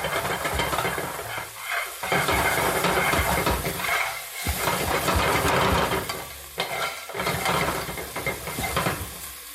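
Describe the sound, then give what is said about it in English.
Aromatics stir-fry over intense heat in a pan rather than a wok. A loud, continuous sizzle runs throughout, with rougher scraping and stirring bursts that swell and ease at irregular intervals. “So again, what you're doing here is you're, in Cantonese, we call this bao, which means to explode. So that's kind of what you're doing. You want to get a sort of like really intense heat on these aromatics, bring out their aroma.”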